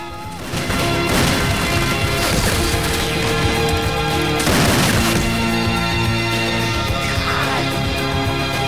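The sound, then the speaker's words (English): Gunfire in an audio drama as a character leaps out firing two guns, with a few sharp, cracking bursts cutting through a loud, sustained musical score. “Come on with the 49er6 leaps out, firing two guns at him.”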